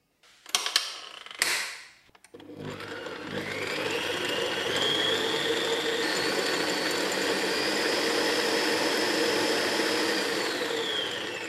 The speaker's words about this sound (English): I'm feeling a bit lazy, so I'm gonna use the stand mixer. And that will take around 15 minutes of mixing until the dough becomes really elastic.